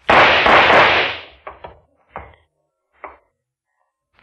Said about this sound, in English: What were those shots?